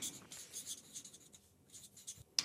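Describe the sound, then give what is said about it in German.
A pen writes on a paper slip in quiet, scratchy strokes, several soft bursts of scribbling that end with a sharper tap. “Ja, dann schreibe ich zuerst.”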